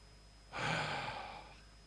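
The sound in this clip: A person draws one deep, calming breath before praying, a single long breathy rush lasting about a second that swells quickly and then slowly fades, with no talk around it.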